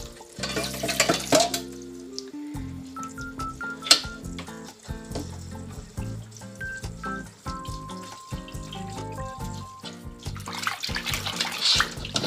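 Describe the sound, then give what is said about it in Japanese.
Tap water runs to rinse and cool freshly boiled soba noodles, a hissing wash strongest at the start and near the end, heard beneath a stepping background melody. “お蕎麦を茹でる時の水はあまりけちらないようにして本当に水を流しながら、えーと、とどんどん冷やしていきましょう”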